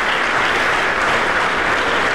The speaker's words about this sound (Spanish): Denle un aplauso al Rey de la Gloria.